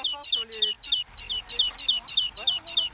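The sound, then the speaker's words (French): A great tit sings a high, rhythmic two-note phrase repeated many times at a steady pace, with brief talking near the start. “Alors, c'est le son de quel oiseau? Lui, c'est le son de mésange charbonnière.”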